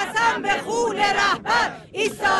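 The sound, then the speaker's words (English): Women chant slogans in unison at a funeral procession in Mashhad, loud rhythmic phrases rising and breaking off in several short bursts, the voices strong and harmonised. “And that is the sound of women chanting, "I swear by the blood of the Supreme Leader, we will stand firm until the end. Death to America."”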